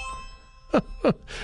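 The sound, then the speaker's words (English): A phone's notification ding: two short, bright, tonal chimes in quick succession, each ringing briefly and clearly over a quiet background. “Yeah, I forgot to turn my phone down.”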